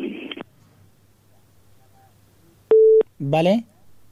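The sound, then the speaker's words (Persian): A single short telephone tone after a listener's call dropped, one steady beep of about a third of a second set between brief bursts of talk. “بله شنونده عزیز، تماس شنونده ما قطع شد”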